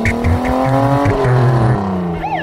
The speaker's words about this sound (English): He drove himself to the dentist's office.